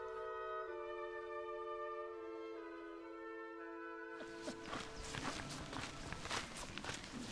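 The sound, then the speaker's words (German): Footsteps of hikers on the Amtsbotenweg trail, walking out of a forest and down toward Pfaffendorf, form an uneven stream of soft crunching steps in the latter half. They follow a sustained tonal musical passage that fills the first half. “Wir laufen ein bisschen aus dem Wald heraus, runter nach Pfaffendorf”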